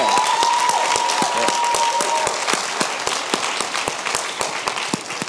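A church audience applauds graduates at a service with dense, sustained clapping that starts loud and slowly thins and softens toward the end.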